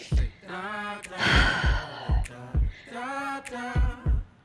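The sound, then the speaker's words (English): A deep, audible breath, a breathy rush of air in the middle, set against a steady low beat and sustained tonal sounds. “Take a deep breath. Make it audible. Hear your breath.”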